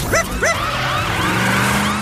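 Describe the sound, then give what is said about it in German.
A police car siren wails in repeated rising-and-falling sweeps, opening with two loud swoops and carrying on more softly over a low, rumbling engine-like noise. “Chase nahm die Rutsche und saß schon Sekunden später in seinem Polizeiauto”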